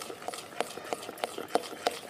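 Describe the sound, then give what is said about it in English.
Fermented dosa batter being stirred: quiet, soft wet strokes in a regular rhythm, six evenly spaced swishes with faint sloshing in between. “After it's fermented, she stirs the batter,”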